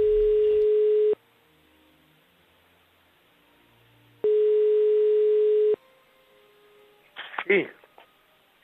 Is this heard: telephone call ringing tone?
yes